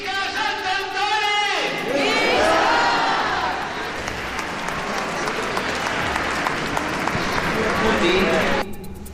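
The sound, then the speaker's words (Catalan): A crowd at the Sant Antoni festival in Sa Pobla cheers and shouts. A single voice leads, then a loud, sustained roar of many voices and applause swells and cuts off abruptly at the end. “El moment més emotiu ha arribat amb aquest clam final de Visca Sant Antoni i Visca Sa”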